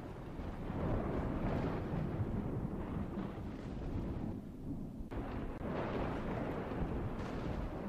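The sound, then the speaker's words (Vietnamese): Rumbling thunder and howling wind as rain approaches: a dense, continuous low roar that swells and dips throughout, with no voices. “tiếng sấm sét của trời chuyển mưa và cả tiếng gió cứ thổi ù ù”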